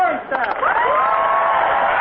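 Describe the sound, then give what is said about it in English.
A large golf gallery cheers and applauds for a player's tee shot on the first hole of a professional tournament's opening round: a dense, steady roar of many overlapping voices whooping and shouting, holding level for about two seconds after a brief dip at the start. “And there was more loud applause after Sörenstam drove the ball on her first hole.”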